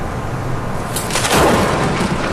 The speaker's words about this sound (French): Là, ce que tu entends, c'est les coups de foudre.